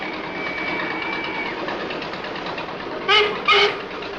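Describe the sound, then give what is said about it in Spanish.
A boat's engine drones in a steady, rhythmic churn as it approaches and docks at a pier, with two short, loud tonal blasts breaking through near the end. “El barco se acerca al muelle.”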